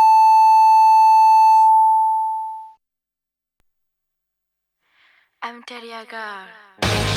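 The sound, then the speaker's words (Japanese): A long, steady, pure electronic tone marks ten o'clock on a Japanese radio station. It holds for over two seconds, fades out, and after a pause a voice starts speaking. “石巻水産が10時をお知らせします。”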